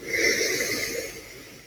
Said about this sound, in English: Everybody breathing in through your nose, out through your mouth.